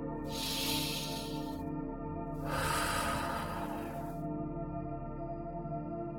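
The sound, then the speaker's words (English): A deep cleansing breath during a guided meditation, heard as two long, airy whooshes of breath. A steady, droning musical tone continues beneath them and carries on alone afterward. “Let's do some more cleansing breaths now to finish this meditative journey. Let's do those breaths now together. Here's breath one.”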